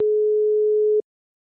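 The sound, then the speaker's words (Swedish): A telephone line tone: one steady, low electronic beep holds at an even pitch and loudness for about a second, then cuts off cleanly into silence. No dialing beeps or voices are heard. “Jag slår in numret.”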